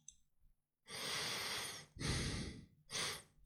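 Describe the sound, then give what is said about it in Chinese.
A person draws breath in through the nose in three loud, hissing inhalations, each lasting about a second, heard alone with brief pauses between them. “那鼻子呼吸出来的声音呢？我给大家吸一个啊。”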